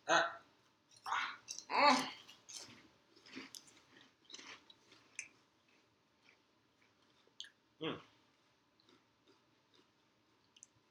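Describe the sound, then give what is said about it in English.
Wet, crunchy chewing of very hot red food, three pieces eaten at once, with a few loud bites early on and then softer, scattered chewing and one more sharp crunch near the end. “But now we about to eat three at a time. I'm going to eat three. Yep. And I'm picking the three biggest ones.”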